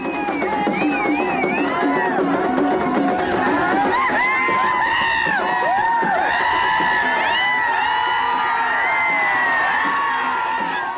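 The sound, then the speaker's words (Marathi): A large crowd at a bullock cart race cheers loudly and continuously, with shrill whoops, rising and falling yells and shouting voices layered over a steady roar. “या बैलगाडा शर्यतीसाठी मोठी गर्दीही झाली होती”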